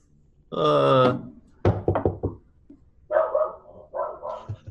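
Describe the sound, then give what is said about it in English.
Dogs barking in a room across a hall: a drawn-out whining yelp, then a quick cluster of sharp barks, followed by a few softer barks, with no talk. “There are dogs in here.”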